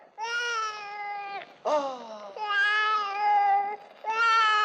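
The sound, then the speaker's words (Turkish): A baby cries in a few long, high, wavering wails separated by brief catches of breath, loud and alone with no talk over it. “Bu da ne güzel bebek böyle. Ne ağlar durursun canım?”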